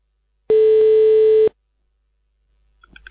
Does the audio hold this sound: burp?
no